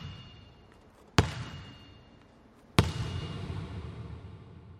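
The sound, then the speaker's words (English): A basketball slammed hard on the floor beneath raised bleachers. Two sharp, loud impacts, each followed by a bright ringing ping and a long decaying tail. “the guy slammed the ball on the ground, and then as the ball was coming up to my microphone, you hear the ping.”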